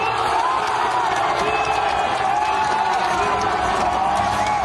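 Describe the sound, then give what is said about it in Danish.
Football fans at a big-screen viewing event in Seattle cheer a USA goal with a dense, sustained roar of crowd noise and overlapping shouts that stays loud throughout. “Og han har stået til et storskærmsarrangement i Seattle og altså optaget videoen af USA's mål. Det lyder sådan her.”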